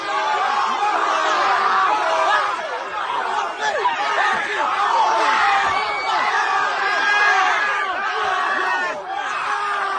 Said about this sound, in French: Ça, c'est le bruit de joie d'une centaine de jeunes qui sont contents de voir 3-4 de leurs comparses frapper une personne aînée.